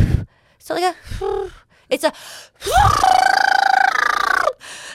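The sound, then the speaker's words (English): A voice imitates someone furiously blowing into a car breathalyzer that must be passed to start the car. A few short vocal bursts lead into a long, strained, buzzing tonal blow of about two seconds, then a brief final puff. “So he just gets into the car and starts just like furiously blowing into his breathalyzer.”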